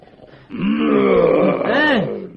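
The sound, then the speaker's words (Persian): A lion's roar in a forest at night: a deep, drawn-out growling roar with a wavering pitch that swells again near the end, loud and alone. “آقا شیره، نهره نکش، نهره من از تو بلندتره.”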